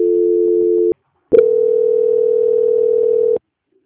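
Electronic telephone tones mark a call being transferred during a bank call: a steady dual tone lasts about a second, then a short silence, then a longer steady single tone holds for about two seconds, with no talk.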